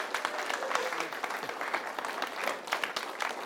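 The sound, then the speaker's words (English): An audience claps steadily to congratulate a newly married couple. The dense, even applause from many hands fills the whole stretch and does not fade. “So let's all put our hands together.”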